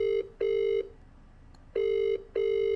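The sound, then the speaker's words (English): A telephone rings on the line after a call is dialed, sounding a steady electronic tone in two pairs of short bursts, ring-ring, a pause, then ring-ring again, with no talk over it. “we went for the traditional telephone. So at this point, I dialed him up and we carried on our conversation.”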